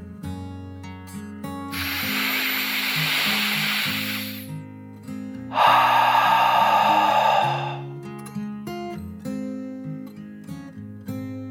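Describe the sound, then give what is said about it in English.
A deep breath in and out: two long, breathy hissing swells, one after the other, heard over soft, gentle music. “With eyes drifting shut, Oliver took one last deep dragon breath in and out.”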